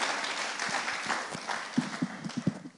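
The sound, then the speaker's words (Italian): Applause from a church audience during a worship service: a dense patter of hand claps with several sharper, louder claps standing out toward the end, continuing steadily throughout. “Facciamo un applauso al Signore.”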